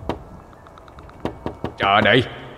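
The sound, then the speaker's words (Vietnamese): Heavy knocking on a door from outside, growing harder and more urgent: a few sharp, unevenly spaced thuds, followed by a brief, loud voiced cry. “tiếng gõ cửa ngoài kia càng mạnh bạo, càng dồn dập hơn.”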